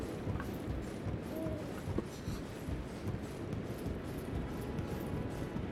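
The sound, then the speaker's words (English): Climbing a ladder in a video game produces a steady run of clunking, step-like knocks, one after another across the whole stretch, against a dense, noisy background. “And importantly, we have a ladder. Let's try climbing this ladder.”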